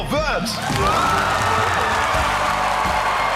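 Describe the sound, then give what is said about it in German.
A crowd of students and teachers cheers and whoops loudly when a Bavarian school is announced as a German school prize winner. The cheering forms a steady roar, with high shrill shouts standing out at the start. “Großer Jubel also.”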